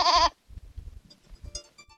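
A lamb bleats once as a played sound effect: a short, loud, wavering cry that stops quickly, followed by faint, scattered low sounds.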